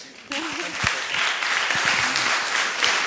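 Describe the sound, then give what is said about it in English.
Audience applause breaks out for a woman coming forward to give a testimony and continues as a dense, even wash of clapping, with a voice speaking briefly over the start. “Give her another big hand.”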